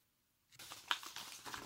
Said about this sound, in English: My mother sent me a card. So I'm going to check this card out.